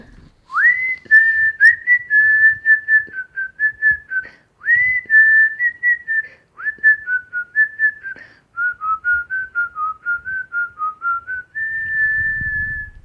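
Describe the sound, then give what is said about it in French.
A person whistles a tune alone in several clear phrases. Most phrases open with a quick upward slide, followed by short repeated notes at a steady high pitch, and the tune ends on a longer held note. “Et oui, c'est moi qui viens de siffler à l'instant.”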